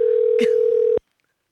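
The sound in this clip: Steady single-pitch telephone call tone, loud and unbroken for about a second before cutting off abruptly, followed by silence.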